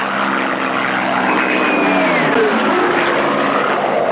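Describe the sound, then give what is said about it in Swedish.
Soviet fighter planes attacking retreating German troops give off a loud, continuous propeller-engine roar. A whining tone slides downward in pitch partway through. “Samtidigt utsattes de för ständiga anfall av sovjetiska jaktplan.”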